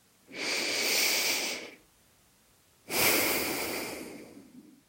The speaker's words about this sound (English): Let's do one more deep breath in.